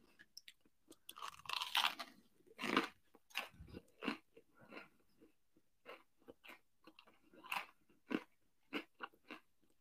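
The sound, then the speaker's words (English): Crunchy bites and chewing of previously frozen garlic bread eaten during a steak and lobster surf-and-turf meal; many irregular, crisp crunches and wet chewing sounds repeat throughout, with no talking. “Seriously, I commend anybody who watches this with all the gross, like, eating noises.”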